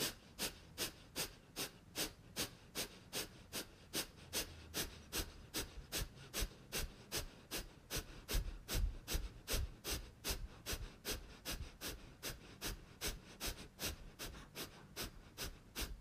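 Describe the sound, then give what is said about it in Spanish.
Kapalabhati breathing practice: many rapid, forceful nasal exhales in a steady, even rhythm of about two per second, sharp puffs repeating unbroken throughout. “Inhala profundo. Kapalabhati, exhala.”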